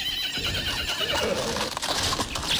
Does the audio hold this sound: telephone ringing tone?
no